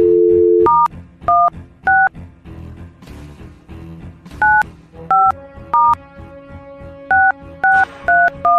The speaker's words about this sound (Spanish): Ya el sistema arrojó el ganador o la ganadora. A ver, vamos a ver. Llamando en vivo